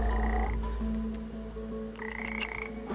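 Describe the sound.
A poison-secreting frog, held stretched between sticks, croaks in faint, sustained tonal calls. Higher-pitched notes come at the start and again near the end, over a low steady hum.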